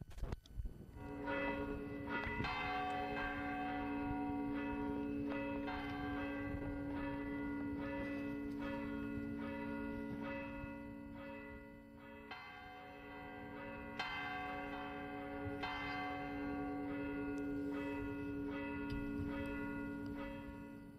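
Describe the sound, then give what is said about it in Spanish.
Church bells ring from the church of Torre de Juan Abad, with many overlapping, resonant strikes and long humming tails that sound steadily and faintly throughout. “Sí suenan las campanas de la iglesia de la Torre de Juan Abad.”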